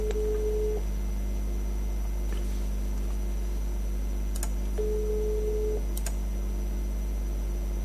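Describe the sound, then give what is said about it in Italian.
An Italian telephone line gives a ringing tone while a call is placed: two long, steady, low beeps spaced a few seconds apart. A constant low hum and a few faint clicks run underneath, with no voices. “Sto chiamando Casalena.”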